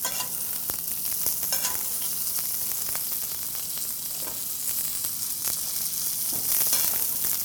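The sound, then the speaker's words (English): Steak sizzling as hot fat is basted over it in a tipped cast iron pan on a high flame: a dense, continuous frying hiss with frequent crackles and pops, heard alone. “Now, as we continue to baste, we start to see one of the things that this basting process is doing for us, and that is cooking the steak from both sides. We can see that this hot fat being basted over the top is cooking the top surface,”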